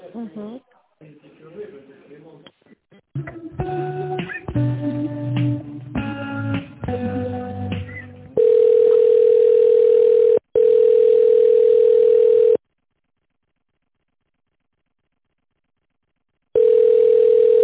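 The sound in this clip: Telephone ringback tone during a call transfer inside a company: long, steady mid-pitched beeps separated by silent pauses. It follows several seconds of varied tonal sound at the start.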